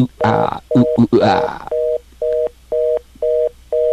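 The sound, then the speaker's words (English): Fast busy signal on a telephone line: a rapid, regular run of short, identical mid-pitched beeps separated by brief gaps. A voice talks over the first few beeps, then several more sound alone. “It's a fast, busy signal.”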